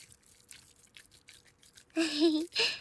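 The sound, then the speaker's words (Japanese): Ear-care cream is stirred between the hands, making many faint, soft, moist rubbing strokes in an uneven rhythm, followed by a louder, wetter squish near the end. “こうして手の中でクリームをかき混ぜる音も ASMR っぽくて気持ちいいから”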